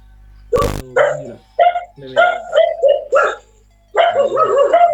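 Dogs bark inside a house during an online class, a string of many sharp, yappy barks in irregular bursts. A brief click sounds just before the first bark.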